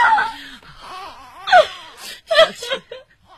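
Crying with wailing, moaning sobs and gasping breaths, swelling into a few louder bursts between quieter whimpers.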